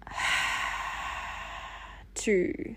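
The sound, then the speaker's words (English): A long, deep breath out as part of a relaxation breathing exercise, a steady airy rush lasting about two seconds that then stops, followed by a short burst of voice. “Take a deep breath in. 2, 3, and out.”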